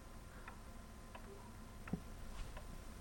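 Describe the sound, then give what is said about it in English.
A clock ticks in a room in a video game: faint, evenly spaced ticks, about four of them, over a steady background hiss. “There's still a clock and there's still like a hiss.”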